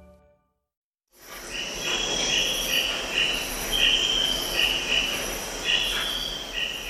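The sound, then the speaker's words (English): Rainforest ambience with a dense, steady chorus of insects. Crickets chirr continuously in a bright, high band, with a few louder pulsing swells layered over a constant soft background hiss. “You're hearing sounds from the rainforest, and that's appropriate for our next guest.”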